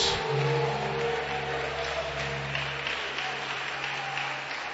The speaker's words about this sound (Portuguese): você vai oferecer a Deus a melhor salva de palmas